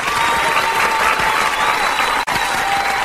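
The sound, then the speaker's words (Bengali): Crowd applause erupts after a speech at a gathering, as an audio drama effect: dense, steady clapping from many hands throughout, with a brief dropout near the end. “ব্যাস ফেটে পড়ল হাততালিতে।”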